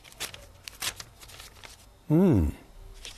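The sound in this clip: An envelope is opened with crisp paper rustling and tearing in a few scratchy bursts early on, followed by a short voiced sound.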